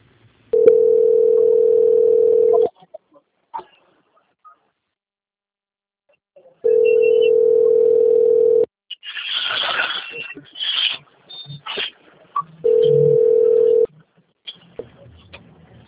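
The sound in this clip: Telephone line tones sound while a call is transferred: three long, steady, mid-pitched beeps of about two seconds each, separated by silence, with a stretch of voice-like sound between the second and third tones.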